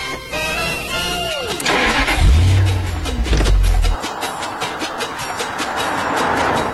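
A flashy vehicle setting off for London: a loud engine start with a falling whine, then a deep low rumble, followed by a long run of rapid, rhythmic clattering pulses.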